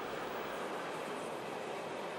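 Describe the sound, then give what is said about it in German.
A train on the Lötschberg line, running through the summit tunnel toward Goppenstein in Valais, makes a steady, faint rumbling roar that stays even throughout, with no voices. “Es geht durch den Lötschberg-Scheiteltunnel. Nach 14 Kilometern Tunnel erreicht die Bahn Goppenstein im Wallis.”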